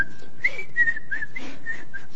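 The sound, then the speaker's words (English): A person whistles a wavering melody alone, a clear high steady tone that glides between a few held notes with short breaks, with no talk over it. “Sorry to whistle and talk at the same time.”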